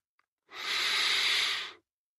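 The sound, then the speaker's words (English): A single deep, slow breath taken while settling down for a bedtime story: one soft, airy, hissing breath lasting just over a second, heard alone against silence. “Close your eyes and take a deep, deep breath.”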